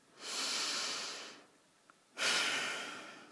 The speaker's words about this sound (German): deine Augen zu schließen und einen tiefen, kräftigen Atemzug zu nehmen